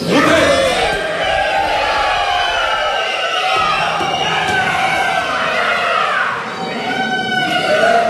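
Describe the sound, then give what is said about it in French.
Many voices of police trainees playing rioters shout and yell together during a crowd-control training exercise, a loud, continuous roar of overlapping cries that barely dips over eight seconds. “Là, ce que vous avez entendu, c'est les plastrons, ce qu'on appelle les plastrons, c'est-à-dire ces stagiaires qui sont désignés pour faire les méchants”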